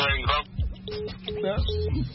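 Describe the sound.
Three short, steady beeps of a telephone disconnect tone sound after a caller hangs up on a live call-in radio show, cutting through a voice and line noise.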